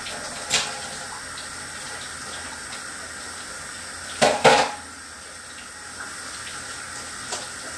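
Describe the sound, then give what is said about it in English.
Water running from a tap into a sink, a steady, even hiss throughout with a few brief knocks on top. “And so I'm running the water now. It'll just be a second.”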